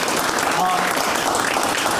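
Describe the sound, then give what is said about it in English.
Audience applause fills the stretch with dense, steady clapping, loud and even throughout, with no clear break or swell. “Big round of applause.”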